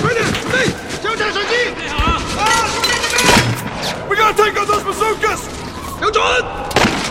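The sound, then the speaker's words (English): Gunfire and exploding bazookas in a firefight: several sharp, loud bangs and blasts burst out at irregular moments, mixed with shouting voices between the shots. “Rick and Alex pop out from cover and shoot the bazooka soldiers, whose weapons explode.”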